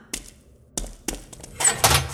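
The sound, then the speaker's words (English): Tapping from a next-door neighbour: a few sharp, dull knocks with uneven gaps, followed by a denser, louder burst of clattering knocks. “I was wondering if you wouldn't mind not tapping. Just for a bit.”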